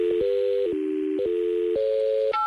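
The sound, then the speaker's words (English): Telephone keypad dialing with DTMF tones: a rapid run of about six steady dual-pitched beeps follows one another without gaps, each holding briefly before switching to the next, loud and clear with no talk. “How do I dial? Right here? That button right there.”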